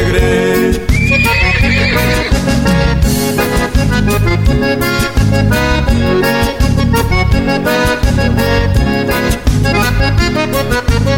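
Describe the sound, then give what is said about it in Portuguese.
A purebred stallion's shrill whinny cuts through loud, continuous music with a steady, driving beat. The neigh stands out near the start before the dense music carries on at full volume. “Para avançar esta guarda, não é preciso ginete, basta apenas um relincho do cunhudo do”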